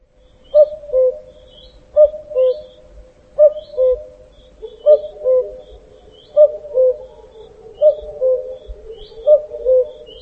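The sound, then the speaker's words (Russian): Cuckoo calling in a forest, a clear two-note falling 'cu-coo' repeated about seven times at a steady, unhurried pace. Each soft, hollow pair rings out alone against quiet background, with no voices. “Кукушка.”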